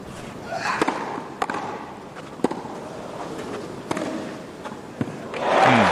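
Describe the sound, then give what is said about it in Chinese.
Tennis ball strikes in a match, a hard serve of about 137 mph met by a fast, deep return, heard as a few sharp, isolated cracks spread over several seconds against a low steady background. “那我们看到费里面对对方137英里时速的强劲的发球，这个接发球接得真的是非常出色，又快又深。”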